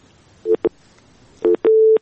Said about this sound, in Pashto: ستاسو اړیکه هم وشلېدله.